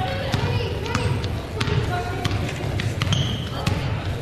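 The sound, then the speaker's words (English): A basketball is dribbled on a court during a girls' basketball game: several sharp, bouncing thumps in a quick, fairly even rhythm under voices and a noisy background. “Johnson dribbles, crossover dribble, lobs it down to Prieto”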